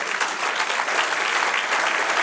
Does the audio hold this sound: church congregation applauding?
yes